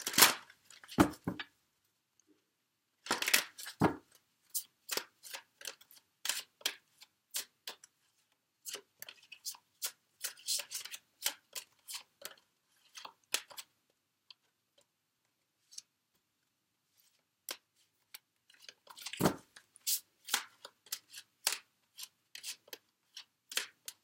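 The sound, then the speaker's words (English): Tarot cards are shuffled and drawn, giving many crisp snaps and flicks in irregular bursts separated by quiet pauses. “So let me just go ahead and get the cards drawn for you.”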